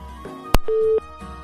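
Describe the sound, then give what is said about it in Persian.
A telephone busy-signal tone follows a dropped caller's line on a phone-in call: a sharp click, then one steady mid-pitched beep lasting about a third of a second, with faint music running underneath. “فکر میکنم تماس استاد عبدالقدوس هم قطع شد متاسفانه”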